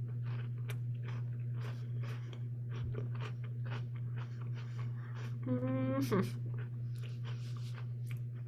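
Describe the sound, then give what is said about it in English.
Chewing and crunching as someone eats a cookie: many irregular, crisp bites and mouth noises over a steady low hum. “Let me get it open and also finish eating this delicious cookie.”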